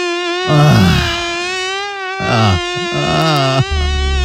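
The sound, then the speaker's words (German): A mosquito buzzes in a bedroom at night, a steady, penetrating high whine that holds an even pitch throughout, with brief low bumps and rustles breaking in now and then. “Heute Nachmittag, ja, denn die Mücke hängt weiterhin bei uns an der Wand fest.”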